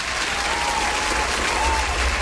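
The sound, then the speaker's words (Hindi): An audience bursts into clapping, a dense, even wash of many hands applauding steadily from start to finish over a low hum. “अरे भाई clapping हो जाए भाई, clapping friends”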